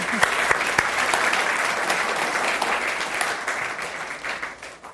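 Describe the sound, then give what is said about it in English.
Applause from a panel-discussion audience welcoming a group of panelists: dense, sustained clapping that holds steady, then gradually thins and fades toward the end. “Let's please welcome all of our distinguished panelists.”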